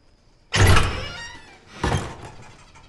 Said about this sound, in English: enter the house through an old, rotting door.